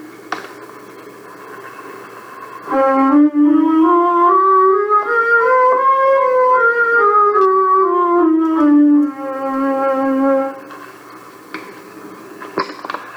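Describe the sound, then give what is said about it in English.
A synthesized scale with eight evenly spaced notes per octave on a logarithmic pitch scale: a bright, harmonic-rich tone steps upward and then back down in a smooth run, loud and alone. “the scale with 8 notes per octave on the log scale sounds like this.”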